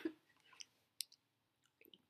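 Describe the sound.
Faint, wet chewing of taro chunks from a bright purple taro drink, a few soft crunchy clicks and squishes spread out with quiet gaps between them.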